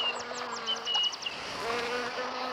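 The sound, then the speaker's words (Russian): Pesky fly buzzing near horses, a faint low steady drone running throughout, with a quick series of high chirps above it early on. “Вот я тебя сейчас поймаю, муха приставучая.”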